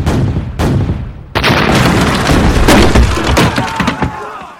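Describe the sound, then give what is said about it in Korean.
Cannon fire from artillery shooting at plank and thatched houses during the siege of Jinju fortress: a few sharp, loud blasts open, followed by continuous dense booming and crackling battle noise. “저 판잣집을 향해서 화포를 쏴라!”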